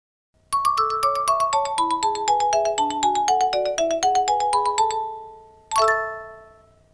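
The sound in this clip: A phone ringtone plays for an incoming call: a quick, bright melody of many short tones runs for about four and a half seconds, then one final chime rings out and fades.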